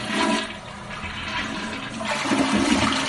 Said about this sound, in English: That was a loud one. Yeah. we got loud toilets.